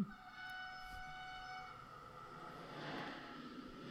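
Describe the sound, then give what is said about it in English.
A train horn sounds in a scene from the film The Godfather Coda: a sustained, quiet horn chord over a low rumble that holds steady, then gives way to a soft, rushing wash of noise. “I don't remember this. A random train scene. This is added.”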